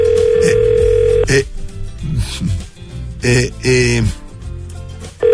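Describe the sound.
A telephone line tone sounds as a call is placed, a steady pitched hum lasting about a second before cutting off, followed by brief scraping and clicking noises.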